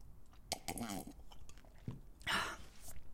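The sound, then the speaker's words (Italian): Potato chips being eaten, with several irregular crisp crunches and chewing bursts at a fairly low level. “Ok, smetto, adesso smetto di mangiare le patatine.”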